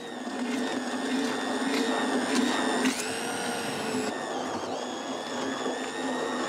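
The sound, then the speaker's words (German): A machine purees freshly caught fish for a fermented fertilizer, giving a loud, steady motor whir with a high whine. Midway the whine jumps briefly upward in pitch, then settles back into a constant drone. “Der Fisch lagert mehrere Wochen in der Tonne und fermentiert. Doch vorher wird er püriert.”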